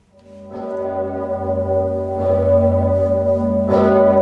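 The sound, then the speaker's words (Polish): A great cathedral bell in Kraków tolls for a clergyman's funeral: three deep, resonant strikes whose long humming overtones overlap and swell in loudness, with no voices. “Zabrzmiał dzwon Zygmunta.”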